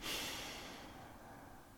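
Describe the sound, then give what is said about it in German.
A slow exhale through pursed lips during a breathing exercise, one soft, airy hiss of breath that fades steadily over nearly two seconds. It is faint and there is no talking. “spitze die Lippen ganz weit nach vorne und atme so aus”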